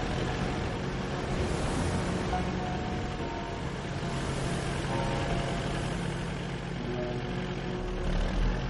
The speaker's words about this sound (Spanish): Un barco pesquero mediano con potentes luces surca las olas.